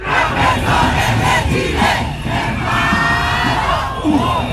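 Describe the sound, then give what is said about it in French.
Striking teachers from across Chile chant slogans at a protest in Valparaíso in light rain: a loud massed crowd shouts in sustained waves of rising and falling voices. “Professeurs en grève ou encore que la ministre démissionne, voici ce que crient des enseignants venus de toutes les régions du Chili.”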